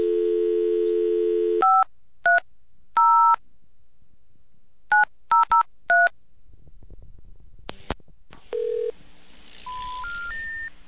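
Telephone keypad tones from a payphone dialing a local number: a steady dial tone, then a series of short, loud beeps in irregular groups, followed by a brief tone and three rising tones.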